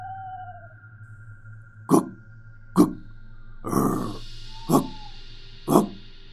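A fierce dog barks five sharp, loud barks spaced roughly a second apart over a low steady hum, the middle bark broader and rougher than the rest.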